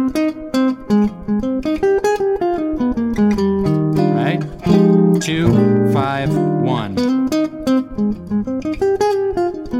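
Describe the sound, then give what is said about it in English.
A jazz lick played over a 2-5-1 chord progression, a steady run of many melodic notes at moderate loudness with a denser cluster of notes near the middle. A voice speaks briefly. “This is a great lick that I learned from Jim Hall over top of a 2-5-1 chord progression. Sounds like this.”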